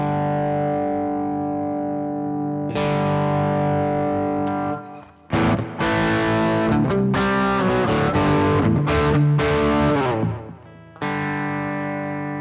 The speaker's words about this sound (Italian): andiamo un po' a schiarirlo e gli aumentiamo un po' di gain, quindi con la manopolina a fianco sulla destra degli ampli